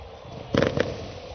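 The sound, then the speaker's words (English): Fireworks go off on an evening after a minor league baseball game in Dyersville, Iowa: two quick, sharp bangs close together over a steady background wash. “Fireworks go off here on this Dyersville evening.”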